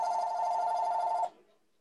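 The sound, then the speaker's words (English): A phone rings once with a bright electronic trill, steady for just over a second, then cuts off into silence. “Sorry about my phone.”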